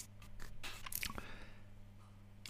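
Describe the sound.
A swing-top Grolsch beer bottle under pressure is opened. A few faint clicks lead to a short, sharp burst of release near the middle, and then quiet.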